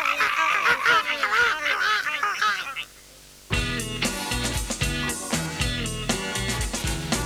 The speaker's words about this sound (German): Möwen schreien. Möwen schreien.